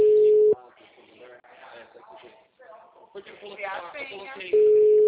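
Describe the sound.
Telephone call tones: a steady, loud electronic tone cuts off, a person talks for a few seconds, then the same tone returns as the call is forwarded to voicemail.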